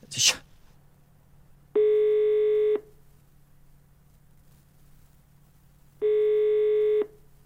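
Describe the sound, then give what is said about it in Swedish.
A telephone call rings out after a short click at the start: two long, steady ringback tones about four seconds apart, with a low hum underneath. “Jag får ringa upp Anki då så får hon berätta. Vad sa du? Nej, vänta. Jag ska ringa upp Anki.”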